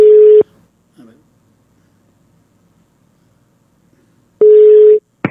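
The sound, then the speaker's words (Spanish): A telephone busy tone follows a dropped call. It comes as a loud, steady, low-pitched tone burst lasting about half a second. Near silence follows, with a faint click, and then a second identical burst and a brief noise at the end. “A ver, ¿qué pasó? Se cortó. A ver, denme un segundo, se me cortó la llamada, denme un segundo.”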